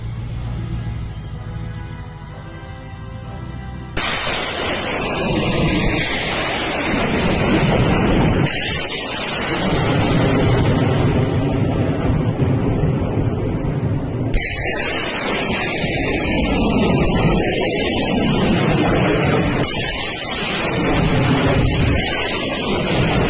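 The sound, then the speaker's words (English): Rocket launches from four M142 HIMARS launchers firing missiles, heard as four successive loud, roaring blasts of exhaust noise at fairly even intervals, each one running on into the next. “I don't think I've ever seen four M142 HIMARSs firing at the same time. Watch the missiles.”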